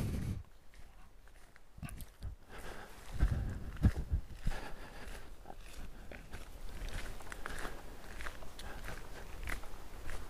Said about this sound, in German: Also ich laufe auf diesem Kiesweg, der geht erstmal so schnurgerade aus.